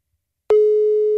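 Telephone busy signal after redialing a call: after a short silence, a loud, steady, single-pitched tone starts abruptly and holds to the end.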